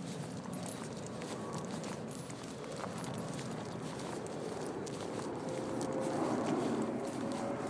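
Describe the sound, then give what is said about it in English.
A horse's hooves clip-clop at a trot along a road, a steady run of many sharp clops over a constant background rush. “is definitely in trotting rather than galloping mood”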